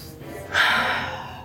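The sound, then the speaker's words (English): A big, deep breath drawn by a woman during a tabletop game turn: one long, airy inhale that surges in suddenly partway through and holds as a loud, breathy hiss until the end. “She is going to take a big, deep breath.”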